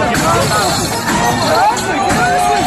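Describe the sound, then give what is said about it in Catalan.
Crowd noise from street riots after a mass outdoor drinking party of about 20,000 people in Plaça Espanya during the Mercè festival, 2021: a dense, unbroken roar of many shouting, overlapping voices. “És el so d'aquell moment, el 2021, en què després d'un macrobotellot amb unes 20.000 persones també hi va haver baralles, agressions i danys a mobiliari de la plaça Espanya.”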